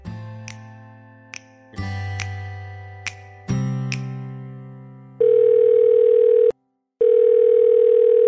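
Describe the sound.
A telephone call being placed: a few chiming, bell-like tones ring out and fade one after another, then a steady continuous tone sounds, cuts out briefly and resumes.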